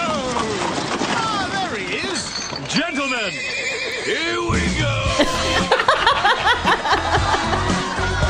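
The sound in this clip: Horse whinnying loudly as its rider arrives in a Fourth of July party beer-commercial parody, with a few high, wavering neighs that rise and fall, then a busier stretch of rhythmic hoof-like clatter.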